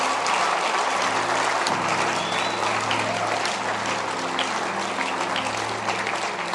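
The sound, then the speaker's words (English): A church audience claps their hands in loud, dense, steady applause that runs without a break throughout. “Why don't you clap your hands one more time for the word?”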